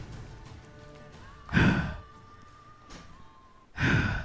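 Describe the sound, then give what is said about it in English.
A voice imitates the labored breathing of a dying wolf: two heavy, rasping breaths with a fainter one between them, each a short noisy burst separated by near-silence, low and breathy rather than spoken. “the breaths of this wolf become more labored and labored. As it slowly keeps drawing fewer and fewer breaths.”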